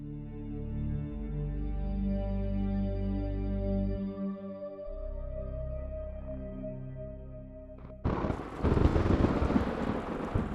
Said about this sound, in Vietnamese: Sài Gòn mùa này đổ xuống những cơn mưa rào bất chợt.